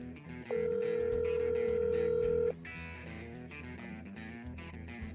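An outgoing phone call rings to a number in the United States. A single steady ringback tone lasts about two seconds over busy background sound, which continues after the tone stops.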